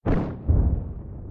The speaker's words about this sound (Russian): Взрыв! Камень пропал в облаке пыли.